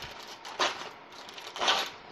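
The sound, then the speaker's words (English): Aluminum foil being peeled off a roll gives two short, crisp crinkling rustles, separated by about a second, fairly faint with no voices. “So here's what I'm going to do. Let me peel off a piece of aluminum foil.”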